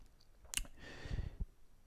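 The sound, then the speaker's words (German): Buttons clicked to enter a three-digit frequency code on a wireless speaker transmitter: a few short, sharp clicks, one crisp and bright, with softer thumps and a brief hiss between them, heard alone without talk. “Drückt dann den dreistelligen Code, das ist nichts anderes als die eigentliche Frequenz des Senders.”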